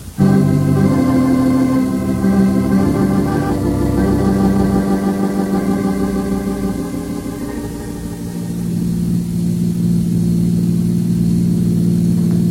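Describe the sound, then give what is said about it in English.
A car engine runs as the car drives off, a steady mid-pitched hum with a low droning undertone that dips in loudness briefly, then swells again toward the end. “Let me drive you home.”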